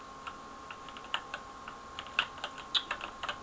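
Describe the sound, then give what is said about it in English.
Computer keyboard clicking while playing a shooter game, many quiet, irregular taps and clicks scattered across the stretch, some slightly sharper than others, with no talk. “hopefully my clicking isn't too loud. In fact, I'm going to move the recording thing a little bit away from the keyboard there.”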